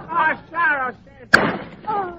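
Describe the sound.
A single sharp gunshot in a radio drama, bursting out suddenly between stretches of excited speech, with voices continuing right after.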